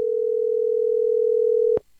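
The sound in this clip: A telephone call tone, one steady low hum held for almost two seconds, then cut off by a brief click.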